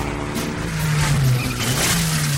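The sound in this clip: A Mitsubishi Lancer engine revs in a TV car advert, a loud sustained mechanical roar whose pitch climbs, dips briefly and rises again.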